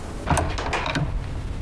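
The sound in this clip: A door opens as someone walks into a room without knocking, giving a brief scraping, rustling sweep of about a second over a steady background hiss.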